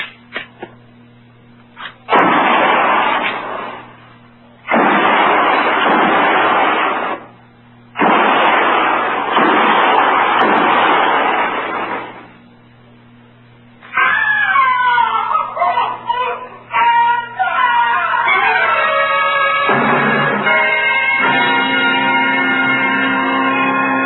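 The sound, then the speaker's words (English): Rifle shots fired between the trees come as three loud, broad bursts, each with a long rough decay. A quieter stretch and other mixed sounds follow. “We'll try a diversion. Might bring them out. And no more than 3 rounds each. Fire between the trees.”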